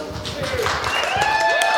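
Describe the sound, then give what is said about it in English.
Audience applause at a stand-up comedy show: a steady, dense wash of clapping that holds throughout, with some vocal whoops rising over it. “That wasn't an invitation to clap. Why you clap for him, but not for the people with dead moms?”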